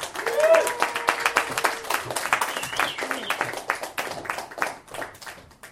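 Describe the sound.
An audience applauds a comedian as he is introduced at a comedy show. Dense, even clapping continues across the whole stretch while a voice speaks over its start.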